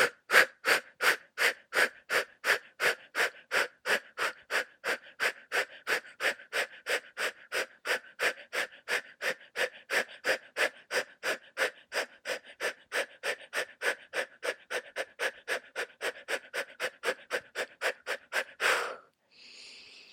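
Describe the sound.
Rapid rhythmic breathing during a yoga session: many quick, forceful inhale-exhale pulses at an even, steady pace, held for nearly twenty seconds, then ending in one longer breath.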